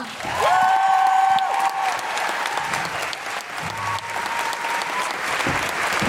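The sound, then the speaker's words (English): An audience bursts into applause to welcome guests onto a stage. The clapping is loud and sustained, holding at an even level from just after the start to the end. “Please put your hands together and join us in welcoming Monique and Jessica.”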